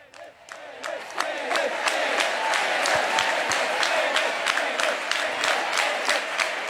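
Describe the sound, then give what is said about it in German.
At the Left party's election-night gathering in Kreuzberg, Berlin, a crowd chants its top candidate's name over and over in a loud, steady, rhythmic unison, with many sharp regular beats, like claps, marking the chant. “Mit Elif, Elif rufen empfing die Basis auf der Wahlparty der Linken in Kreuzberg ihre Spitzenkandidatin und möglicherweise nächste regierende Bürgermeisterin von Berlin,”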